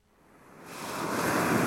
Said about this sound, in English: This man is surfing in Cornwall, in the south of England. It's June, but the water is cold, so he's wearing a wetsuit.